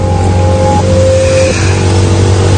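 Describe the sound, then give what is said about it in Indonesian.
A motorcycle engine revs as the rider opens the throttle on a night ride from Setiabudi to Cimahi. The engine drones loudly and continuously, and its tone drops in a couple of distinct steps. “Namun aku coba tempuh dengan menggunakan motorku. Menancap gas motor menerpa angin malam yang”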